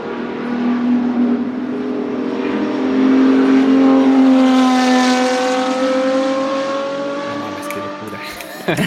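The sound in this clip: A 917 race car in Gulf livery revs hard, its loud, droning engine note climbing steadily in pitch for several seconds before easing off.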